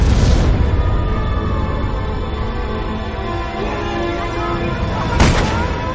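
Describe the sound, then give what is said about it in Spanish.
Gunfire from soldiers shooting in a war action film battle scene: a dense, continuous roar of shots with one sharp, louder blast near the end. “Los soldados le disparan.”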